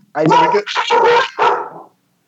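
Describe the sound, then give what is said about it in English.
A dog barking: three loud, rough, mid-pitched barks in quick succession, the middle one longest, then silence. “There's going to be a lot of dogs. Hopefully that it doesn't interrupt too much.”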